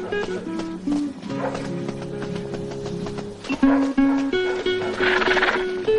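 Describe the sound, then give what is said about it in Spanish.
Hoofbeats of two horses ridden out of Córdoba clop steadily along, mixed with sustained musical tones throughout. “Luego el hombre y la mujer cabalgan saliendo de Córdoba.”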